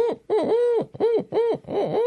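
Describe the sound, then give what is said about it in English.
Tawny owl hooting: five wavering, resonant hoots follow one another in quick succession, each rising and falling in pitch. The hoots are loud and clear with nothing else around them. “and it's called a tawny owl, and you'll hear it on soundtracks”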